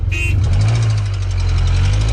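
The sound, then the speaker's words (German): A car engine runs with a steady, loud, low rumble throughout, opened by a short high beep at the very start. “Egal ob gemütlich oder schon tiefig, Hauptsache der Motor, der ist schon gestartet.”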